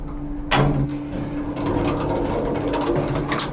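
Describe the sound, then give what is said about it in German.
A lift in a power plant starts moving up toward the roof of the boiler: a sharp thud, then a steady low mechanical hum with faint rattles. “Der Fahrstuhl setzt sich in Bewegung. Wir fahren auf das Dach des Kessels.”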